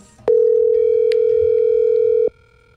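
A telephone dial tone heard while calling a number: one steady, unbroken tone that holds at a level pitch for about two seconds, then cuts off abruptly, with no talk.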